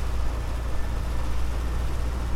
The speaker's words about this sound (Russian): Автомобиль едет по дороге под палящим солнцем.